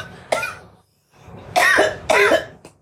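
A person chokes and coughs: a few harsh, rasping coughs with a short silence between the first cough and the rest, the last two loudest, then a faint trailing one.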